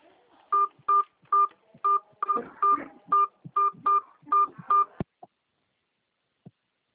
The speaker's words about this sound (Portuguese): Para começar seu atendimento, por favor, digita para mim o número do seu... ou o CNPJ. Pode digitar.